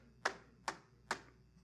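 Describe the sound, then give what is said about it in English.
Hands strike a computer keyboard at random, giving three sharp, faint clacks spaced evenly within under two seconds. “I brought a keyboard here with me today. If I, as a programmer, were to just blindly hit this keyboard,”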